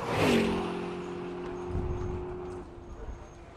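A car engine as the driver shifts gear and speeds off down an alley toward the street: a steady, humming drone that starts a little higher and louder, holds, then drops away after about two and a half seconds.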